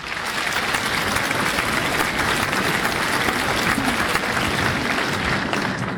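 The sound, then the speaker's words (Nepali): A group of people clap after a prize winner is announced. The dense, even patter of many hands keeps up for the whole clip with no talk. “अब हामी ताली पनि पड्काइहाल्छौँ।”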